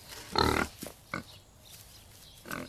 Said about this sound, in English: Then he emerges from a barn, leading a pig on the rope lead. He has a pig.